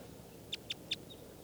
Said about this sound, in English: There's one bird here, lone bird, perched up in the top of a